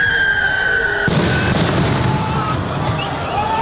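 A police stun grenade goes off at a street protest where stones are being thrown. A sudden loud blast cuts through steady crowd noise, a second crack follows shortly after, and a rumbling wash lingers.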